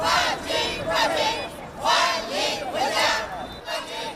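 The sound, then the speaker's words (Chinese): A street crowd of residents cheers and shouts welcome slogans in unison for the Lijiang team's arriving parade float after their championship win. Loud, rhythmic bursts of massed chanting repeat about once a second, with crowd noise in between. “等候已久的市民拉起横幅，挥舞小旗，齐声高喊欢迎口号，欢呼声顺着街道一路回荡。”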